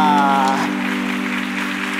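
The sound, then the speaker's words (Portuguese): Children applaud after a story, producing a soft, even patter of clapping that sounds like rain, over a steady hum. “Palmas pra nossa história!”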